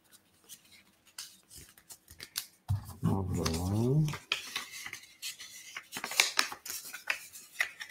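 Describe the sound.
Paper rustles and creases as sheets are folded into four, with a run of crisp crackles and scrapes of varying loudness. A voice sounds briefly midway.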